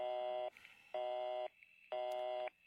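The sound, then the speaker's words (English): A telephone busy signal sounds after a number is dialed: three short, evenly spaced electronic tones, each about half a second with equal pauses, steady in pitch and faint, with no talk over them. “Oh, busy. I know Murray Hill 40098 is busy.”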